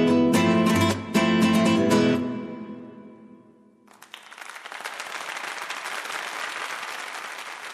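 A concert audience breaks into applause: loud music plays first and fades out, then a dense, steady wash of clapping builds and carries on to the end.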